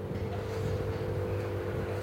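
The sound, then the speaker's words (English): A giant robot vacuum cleaner picks up manure in a cow barn, giving a steady mechanical drone. The constant low hum carries a faint tonal whine and stays unchanged throughout. “That noise you hear in the background, that's a giant robot vacuum cleaner, kind of like a poop Roomba. It moves around the room, picking up another cow product, cow pies.”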